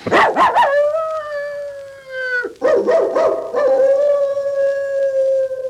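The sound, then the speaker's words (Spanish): A Great Dane barks and howls, with two rounds of a few sharp, loud barks each followed by a long, sustained howl, with no talk. “Es el gran danés de Hampstead. Quiere que le rectifique el mensaje.”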